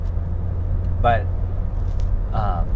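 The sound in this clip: A low, steady road rumble comes from a car driving through Mobile, continuous from start to finish, with a couple of short bursts of talk over it.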